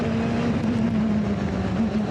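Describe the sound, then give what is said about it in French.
Steady, loud engine drone from a high-powered racing car with a power-to-weight ratio of one horsepower per kilo, running at about 250 km/h at the end of a short straight. The pitch stays nearly constant throughout. “Je suis quand même à 250 km/h en bout de la ligne droite, alors que la ligne droite, elle est hyper courte.”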